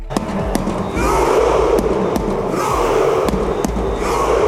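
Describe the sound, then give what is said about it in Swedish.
Norwegian football fans cheer after their country's 3-2 World Cup win over Senegal in New Jersey: a dense, roaring crowd noise swells after the first second and is broken by sharp claps and bangs. “Så där lät Norge efter att de blev klara för 16-delsfinal i fotbolls-VM efter att ha besegrat Senegal med 3-2 i New Jersey.”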